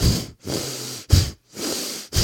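Quick breaths drawn in and pushed out through the nose, loud and airy, in a fast, steady rhythm of several short bursts separated by brief pauses, with no talk.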